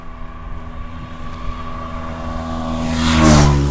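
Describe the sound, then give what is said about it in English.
Motorbikes pass by on a street in Italy. Their engines drone with a low, steady hum, and the sound swells into a louder rushing roar near the end as one goes by. “Motorbikes.”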